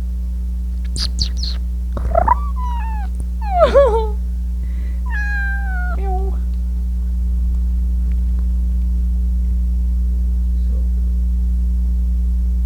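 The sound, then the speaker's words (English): A cat meows into a microphone, giving a few short, whimpering calls early on, then falls quiet while a loud, steady low electrical hum runs throughout. “Say it again. Say. Say meow, kitty.”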